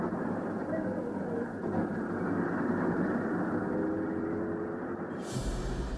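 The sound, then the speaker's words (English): Bus engine recorded on board while riding: a steady, loud, low rumbling drone with faint whining tones running through it, continuous throughout with no talk. “the various engine noises. These sounds are from Colin's own tape recordings, which he made while riding on the vehicles.”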